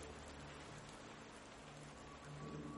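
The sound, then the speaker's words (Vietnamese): Sudden rain patters on a domed roof as a dense, even hiss of drops. It stays soft and steady throughout, with no voices. “Ngoài kia, một trận mưa bất ngờ đổ xuống, mái vòm kêu lên rào rào.”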